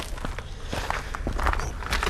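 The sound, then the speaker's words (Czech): Footsteps climbing the Cibulka lookout tower: a few uneven, scuffing steps over continuous background noise, with no talk. “Tak, lezeme na věž na Cibulce.”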